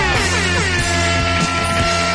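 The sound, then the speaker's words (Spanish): An air horn sounded on request blasts loud and unbroken for about two seconds, a dense stack of steady harmonic tones held with no pause. “toca la bocina, toca la bocina”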